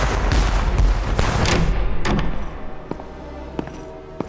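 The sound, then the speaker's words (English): Ship's cannons fire during a naval fight, heavy booming blasts merging into a loud rumbling roar that fades, followed by a few sharper cracks. “Men the cannons! Come on, lads! Stand fast till she's close! Hold steady! On my mark! Aye, sir! Fire! Fire!”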